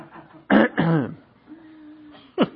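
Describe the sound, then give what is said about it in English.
Throat clearing to work out phlegm: three rough, throaty bursts, two loud ones close together followed by a shorter one after a pause, with quiet between. “As I work out my phlegm ball that I get every night now.”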